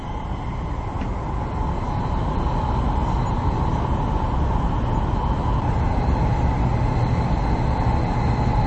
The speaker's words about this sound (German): sodass man sehr gut schlafen kann und ja dem Rattern der Schienen oder der Rollen auf den Schienen lauschen kann. Dementsprechend ist eine Fahrt im Hochgeschwindigkeitszug sehr angenehm.